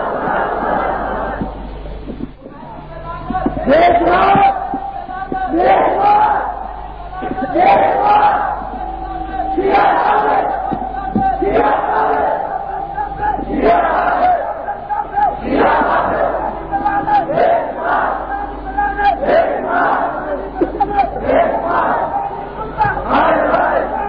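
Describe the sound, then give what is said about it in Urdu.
A large crowd loudly chants a religious slogan (nara) at a gathering. Many forceful bursts of massed voices repeat in a steady rhythm throughout. “اچھی آواز میں نعرہ”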